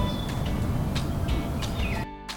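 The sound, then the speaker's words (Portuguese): Birds chirp in a beautiful land of trees and flowers inside a mountain, a few short, high chirps over a steady, hissing background that cuts off abruptly near the end. “No interior da montanha havia uma terra muito bonita, cheia de árvores, flores e passarinhos.”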